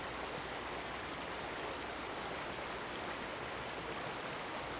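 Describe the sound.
Steady rushing water at the shore, a dense, even hiss with no breaks or distinct splashes, quiet and constant throughout.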